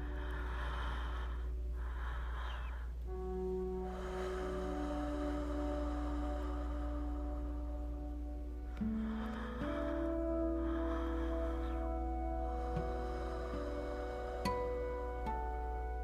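Slow, deep breathing during a breathwork exercise, with a few drawn-out inhales and exhales audible over a soft, steady sustained music drone. No one speaks.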